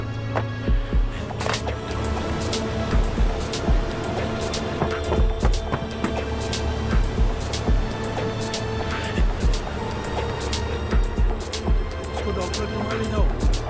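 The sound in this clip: A car is driven fast through traffic: a steady engine drone with humming tones, broken by frequent bumping thumps throughout.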